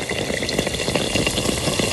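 Yeast-dough pastries with thick, soft rims deep-frying, giving a steady, dense sizzle with small crackles and pops throughout and no voices.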